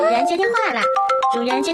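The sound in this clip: A novelty phone ringtone plays in a high, squeaky, cartoon-like voice with gliding, sing-song pitch for about two seconds.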